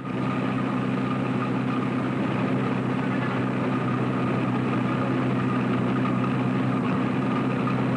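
A car engine drones steadily as the vehicle keeps pace alongside a bus, producing a constant low hum with a firm, even rumble and no change in level throughout.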